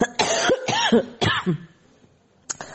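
A quick cluster of harsh, throaty coughs from a person recovering from an illness with bronchitis, followed by a short lull and one more brief cough near the end.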